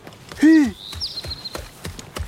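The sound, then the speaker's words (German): A horse gives a brief, loud nickering call, followed by a steady rhythm of clip-clop hoofbeats. “Wie heißt es? Das Pferd heißt Pferd.”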